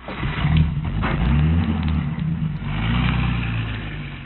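Car engine pulling away, a medium-pitched motor revving and droning in continuous waves with no talk over it.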